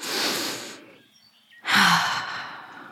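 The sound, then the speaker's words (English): A deep breath: two long, loud, airy rushes of breath separated by a short silent pause, the second one stronger and longer. No speech. “You go outside on the grass. You take a deep breath.”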